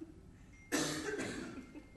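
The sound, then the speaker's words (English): A single short, dry cough bursts out after a moment of near silence, its breathy tail fading quickly, with no talk around it. “Problem is, now if I cough, it's not intentional.”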